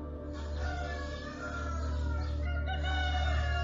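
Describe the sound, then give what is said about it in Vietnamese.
A rooster crows in one loud, drawn-out, strongly harmonic call that rings on for several seconds, with no talking. “Tiếng gà gáy vang lên như thúc giục.”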